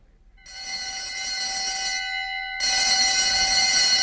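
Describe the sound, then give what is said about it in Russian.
Alarm bell ringing, switched on at a camp to scare off a bear, sounds as a steady, bright metallic ring rich in overtones. It starts after a brief silence and holds constant, then turns noticeably louder and harsher partway through. “Так, включил. Надеюсь, сработает.”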